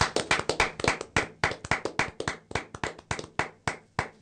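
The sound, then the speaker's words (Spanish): Hands clapping in a birthday round of applause, sharp separate claps in a brisk, slightly uneven rhythm from a small group, many claps over about four seconds, fairly loud with no talk over them. “Norita Cortiñas, a quien estaría bueno darle un aplauso, ¿no?”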